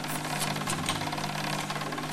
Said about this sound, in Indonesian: itu apa? Hah? Mesin jahit.